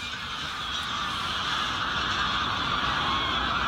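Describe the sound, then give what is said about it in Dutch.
A large flock of greylag geese flying over a polder, heard as a dense, continuous wash of overlapping honking calls with no single call standing out, steady in level throughout. “Ondertussen stroomt de polder leeg met grauwe ganzen. Oh jeetje, er komt echt een hele bus aan. Nou, honderden.”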